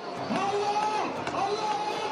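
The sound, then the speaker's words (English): A crowd celebrates in Tahrir Square amid reports that Mubarak may step down, a dense, steady babble of many raised voices with no single voice standing out. “That's the sound of Tahrir Square amid reports that Mubarak may be stepping down. As crowds celebrate the news”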